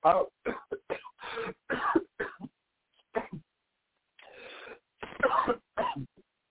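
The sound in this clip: Dry coughing and throat clearing from a parched throat: a run of many short, loud, rough bursts in an uneven rhythm, with a brief pause before a final cluster of harsher hacks.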